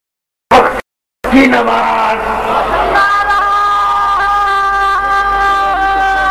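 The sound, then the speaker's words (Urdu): A crowd chants a religious slogan at full force. One sharp shout cuts off into a short silence, then many voices surge together and hold long, sustained tones at a loud, even level. “آواز دیکھیے کتنا زوردار نعرہ لگا”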